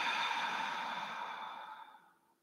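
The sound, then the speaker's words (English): A deep breath, in through the nose and out through the mouth: a long, airy rush of air that starts loud and tapers off over about two seconds, with no talking. “take a deep breath in through your nose and exhale out your mouth.”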